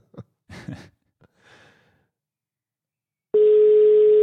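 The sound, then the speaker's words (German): A steady, loud telephone tone sounds as a call to Spain connects, holding one unchanging pitch to the end after a few soft breaths and small mouth noises. “Mal gucken, wie die Verbindung nach Spanien ist.”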